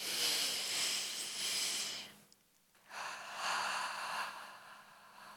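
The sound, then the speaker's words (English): A deep breath: a long, airy, hissing inhale lasting about two seconds, a short silent pause, then an equally long, steady breathy exhale. “So take a deep breath.”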